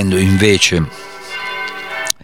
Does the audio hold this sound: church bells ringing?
yes